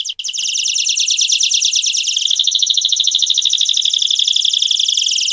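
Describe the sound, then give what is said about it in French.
Canaries sing in rapid, unbroken high-pitched trills that stay loud and steady throughout, with a second, higher strand of song joining partway through. “En ce moment, vous entendez deux canaris. À présent, vous entendez des canaris.”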